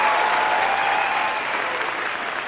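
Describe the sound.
Warm audience applause welcoming a singer with a guitar onto the stage at a Christmas gathering: a thick, even wash of many hands clapping, strong at first and easing off slightly toward the end.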